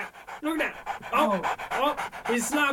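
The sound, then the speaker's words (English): A dog pants loudly in quick, rhythmic breaths with a slightly whiny, voiced edge, and the panting continues steadily throughout. “That's a dog. That's definitely a dog.”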